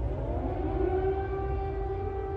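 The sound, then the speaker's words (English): Air raid sirens wail in Kyiv during heavy Russian airstrikes, a loud, sustained, steady-pitched tone with layered harmonics that holds continuously without a break. “Air raid sirens sounded as the capital came under heavy bombardment from Russian airstrikes.”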